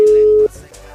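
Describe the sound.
A telephone tone on an unanswered call: one steady, clear beep lasting about half a second, then it cuts off and only faint low noise remains.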